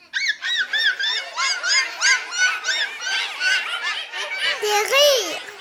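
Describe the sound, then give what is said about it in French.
A hyena laughing in a fast string of many high, yelping giggles repeated in quick rhythm. A lower, drawn-out call comes near the end. “La hyène rigole. Comme seules les hyènes peuvent rigoler.”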